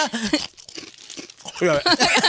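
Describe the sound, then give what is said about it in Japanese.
Crunching of wasabi-flavoured kaki no tane rice crackers being eaten, crisp crackly bites and chewing mixed in with people talking. “わかりました、罰ゲームとしてわさびの柿の種を食べます。”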